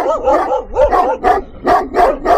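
A dog barks in a series of about six loud, wavering yelps with a howling quality, evenly spaced and heard on their own.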